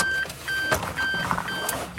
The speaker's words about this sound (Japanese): さあ、エンジンかかりましたね。